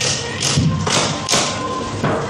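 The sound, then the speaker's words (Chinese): Backrest of a reclining school desk chair being lowered, giving several dull thuds and knocks spaced unevenly over about two seconds. “三、放倒椅背。”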